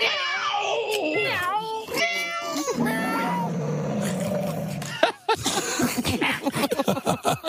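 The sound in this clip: A person imitates a cat with a run of wavering, drawn-out meows that slide up and down in pitch, some strained and throaty. Fast, choppy talk follows near the end.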